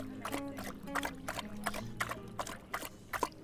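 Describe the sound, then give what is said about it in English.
A dog laps drinking water, making many quick, wet splashing slurps in a steady, uneven rhythm. “Yep, that's a dog drinking water.”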